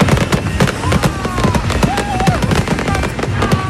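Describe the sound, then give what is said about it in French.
Fireworks display on the eve of 14 July at place de l'Arsenal in Belfort, a Tour de France themed show: dense, continuous crackling and popping from many rapid bursts, with sharp bangs scattered throughout at steady loudness. “C'était comme ça hier soir, place de l'Arsenal à Belfort, le seul feu d'artifice autorisé dans le territoire de Belfort”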